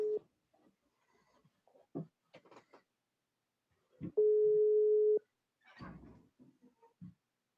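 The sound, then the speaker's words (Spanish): A telephone call is being placed. Short scattered blips lead into one long, steady electronic tone about a second long, followed by a few brief faint noises. “Ahí estábamos colocando el llamado. Siempre tan expectante el momento de la llamada.”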